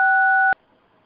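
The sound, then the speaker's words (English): A single dual-tone telephone keypad tone sounds steady and loud for about half a second, then cuts off abruptly into near silence. “Sounds like someone's dialing.”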